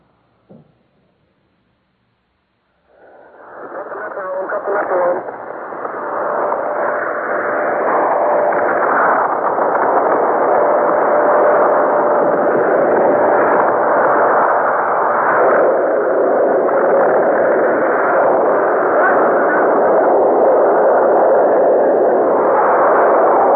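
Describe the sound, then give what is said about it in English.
A sustained roar comes from an atomic bomb detonation at Bikini lagoon. After a short silence and a faint click it starts abruptly and swells into a dense, steady rumbling roar that holds unbroken to the end, with no voices. “We now bring you the recording of the bomb's blast at Bikini.”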